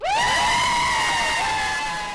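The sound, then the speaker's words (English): A loud, sustained whoop of joy from people celebrating the Supreme Court same-sex marriage ruling: a single long, high shout that climbs sharply at the start, then holds and fades slowly, with crowd noise beneath it. “and a lot of cheering outside of the U.S. Supreme Court building in Washington, D.C. And about 2,000 miles away, in Seattle, that cheering was echoed in the offices of Legal Voice.”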